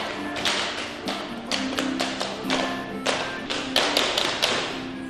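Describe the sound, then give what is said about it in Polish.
Feet tap rapidly at an Irish step dance rehearsal, many sharp, quick taps and light thuds in irregular bursts over a steady background tone. “Z tyłu słyszymy próbę stepu, właśnie się zaczęła. To może chodźmy ją zobaczyć.”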